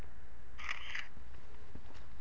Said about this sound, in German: Aber ich mache mal so ein schönes Foto.